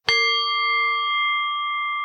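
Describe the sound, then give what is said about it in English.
Meditation bell rung once to open a meditation period: a single bright, clear strike that rings on as a long, steady, pure tone with a few layered overtones, loud and alone. “let me start out with my meditation bell because the bell, see if I can do this,”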